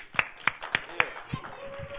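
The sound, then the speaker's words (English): Four sharp, evenly spaced hand claps from an audience land within about one second, followed by quieter talking voices. “Everybody clap. Y'all give it.”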